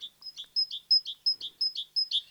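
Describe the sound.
A great tit sings a bright, high two-note phrase, repeated many times in a quick, even rhythm. The alternating notes are clear but fairly faint, heard alone without other sounds.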